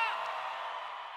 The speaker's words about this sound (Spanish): aplauso para María Becerra